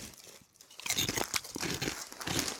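Someone bites into and chews salty fruit gum candy, heard close up. Many wet, crunchy bites and chewing sounds follow each other in an uneven rhythm, with no talking.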